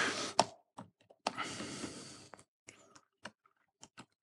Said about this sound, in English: And on the other side, I will just type in, be careful with our stuff.